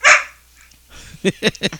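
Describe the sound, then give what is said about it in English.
A puppy barks in a few sharp, high yaps, one burst at the start and a quick cluster near the end, restless at being held in place. “She's not happy that we have her. You've got her hemmed up. She's a puppy. She wants to run, you know, burn off energy”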